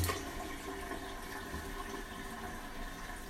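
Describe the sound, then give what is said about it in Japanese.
Tap water runs steadily as hands are washed after using the toilet, a faint, even rush of water with no pauses. “手もね、しっかり洗って。”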